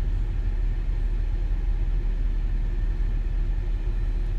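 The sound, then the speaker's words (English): A car engine idles in stopped construction traffic on a mountain road at Crater Lake, giving a low, steady rumble. The drone stays constant, with no distinct events and no voices. “I'm sitting here in traffic at Crater Lake”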